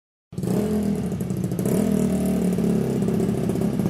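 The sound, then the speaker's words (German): A speedway racing motorcycle engine warms up in the pit box. It starts abruptly and keeps up a steady, buzzing mid-pitched run, growing slightly louder partway through. “Bevor das Training auf der Bahn beginnen kann, wird die Rennmaschine in der Box warm gefahren.”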